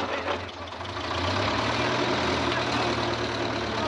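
An armored car's engine rumbling as it reverses, a steady low drone that grows louder after the first second and then holds.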